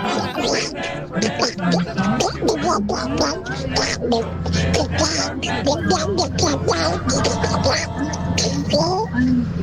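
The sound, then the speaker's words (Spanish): A person doing a Donald Duck voice impression, a raspy, quacking, nasal jabber that runs on steadily and loudly throughout, with choppy bursts of squawky syllables. “Y aquí les presento a mi amigo Pato Donald.”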